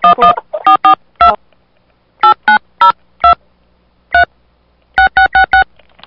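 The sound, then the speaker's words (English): Telephone keypad tones dial a phone number at an automated calling prompt: many short, loud, clean beeps in quick uneven clusters with brief pauses between groups, alone and without talk. “To place the call, please enter the phone number you would like to dial, followed by the pound key.”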